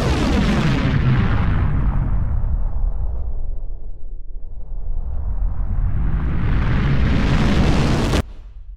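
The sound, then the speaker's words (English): A bomb explosion held inside a time field and rewound: a loud, continuous roar whose brightness sweeps downward, then climbs back up before cutting off abruptly. “The bomb has already exploded, and if we wait a moment or two...”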